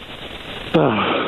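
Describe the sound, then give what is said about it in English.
A caller's deep breath over a telephone line, a sudden loud, sniff-like inhale that cuts in after a quieter stretch of line noise and carries a faint voiced edge. “No, you don't. You said it right there. You took the deep breath.”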